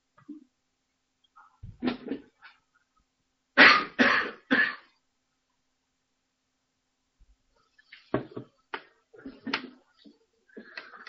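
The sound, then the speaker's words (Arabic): A person coughing, with a tight run of three loud, harsh coughs in quick succession, then a quiet pause, followed by several softer, shorter bursts. “مش عارف بكح ليه”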